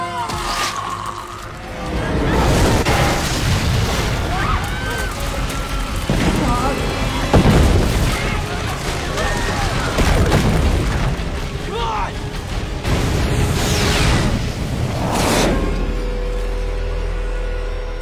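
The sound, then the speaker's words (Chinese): Explosions and collapsing structures at a race stadium grandstand in a disaster film: heavy, loud booms and dense rumbling that go on without a break, with several sharper blasts standing out. “看台上相互踩踏、爆炸、坍塌，飞来的轮胎最先把机修工老婆爆头，接着拖车男夫妻双双拦腰砍断。”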